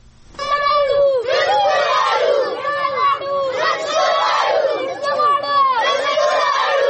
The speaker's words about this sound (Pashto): په دې اړه له سوات زموږ خبريال نیاز احمد خان دا راپور استولې دی چې د احتجاج کوونکو پر غږونو پیل کی.